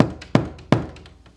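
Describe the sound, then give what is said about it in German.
Sharp knocks on a door in the middle of the night, several hard, evenly spaced raps, each ringing briefly and then fading, with a quieter knock at the very start. “Dann klopft es noch einmal, etwas dringlicher.”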